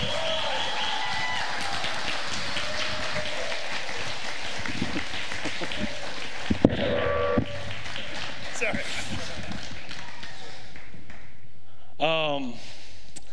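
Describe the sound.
Applause and cheering from a church audience welcoming the lead pastor back to the stage: loud, steady clapping with whoops throughout, and a voice speaking over it.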